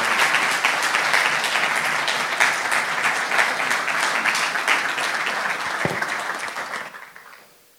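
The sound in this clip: A church audience applauding to welcome a preacher: dense, steady clapping that holds for several seconds, then fades quickly into quiet.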